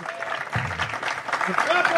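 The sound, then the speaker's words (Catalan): Studio audience applause, brief and moderately loud, with talking over it. “Doncs, aplaudim, molt bé.”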